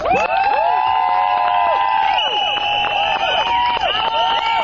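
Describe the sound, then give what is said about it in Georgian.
A crowd of women protesting outside parliament shouts, cheers and whistles, with many overlapping high voices and swooping whistle-like calls rising and falling. The sound is loud and continuous throughout. “აი ესეთი შეძახილების და სასტუენების ხმის ფონზე მოითხოვდნენ პარლამენტის წინ შეკრებილი ქალების საკუთარი უფლებების დაცვას.”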